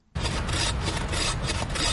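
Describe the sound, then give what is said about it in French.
Rasping strokes of a hand saw cut through black wattle, an invasive Australian acacia, as woodcutters clear a dense thicket in South Africa; the loud, gritty scraping runs continuously in a steady back-and-forth rhythm, with no talk. “Une scie à la main, les bûcherons s'activent dans un épais taillis de black wattle, un acacia originaire d'Australie”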